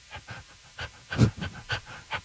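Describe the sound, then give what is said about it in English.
People imitate a dog panting with many quick, breathy huffs in an uneven rhythm, one burst noticeably louder in the middle. “I would like for you guys to do a little panting and barking and puppy talk to each other about how fantastic I am.”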